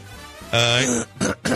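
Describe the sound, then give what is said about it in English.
A man clears his throat with a voiced, rasping rumble, followed by two short, harsh bursts. “He can stop with me with the throat clearing. Well, you're both. Today's the day. He just did it.”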